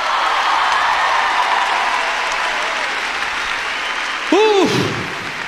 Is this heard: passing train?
no